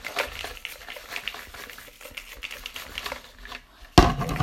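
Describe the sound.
Playing cards are shuffled, a quick, dense crackling patter of flicking cards that ends in a sudden louder burst.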